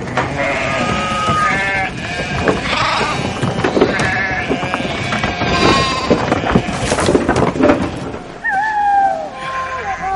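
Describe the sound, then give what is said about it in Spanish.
A flock of sheep bleats as it breaks through a stable door at a mountain shelter and flees. Many overlapping bleats ride over a loud, continuous commotion that lasts the whole clip. “Las ovejas derriban la puerta del establo y huyen.”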